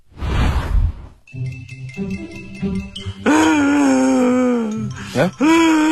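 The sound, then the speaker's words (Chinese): A voice imitates a loud wailing cry, like a friend suddenly bursting into sobs over drinks. Long moaning tones sag slightly in pitch, and a second wail swells near the end, with light tinkling in the earlier part. “这个时候，忽然间有一个朋友呜呜大哭起来。”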